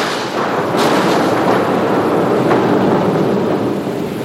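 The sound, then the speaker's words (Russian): An explosion of deafening force blowing apart a brig at sea: a loud, sustained, rumbling roar with crackling texture that fills the whole stretch without voices. “И в ту же минуту раздался взрыв оглушительной силы.”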